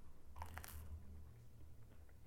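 A soft, muffled bite into toast that is no longer crispy, a faint brief crunch lasting well under a second with very little crackle, then quiet.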